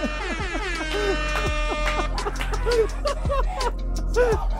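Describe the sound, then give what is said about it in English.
Air horns blare loudly and repeatedly in bright, harmonic blasts that overlap one another, some sliding downward in pitch, keeping a dense wall of honking throughout. “More air horns.”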